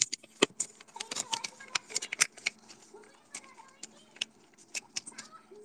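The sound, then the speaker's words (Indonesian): Paper is handled and rustled close up for ASMR, giving many sharp, crisp crinkles and crackles in irregular bursts over a quiet background. “Sebentar. ASMR kertas, coy.”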